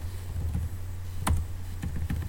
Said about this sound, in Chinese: 先打个字啊。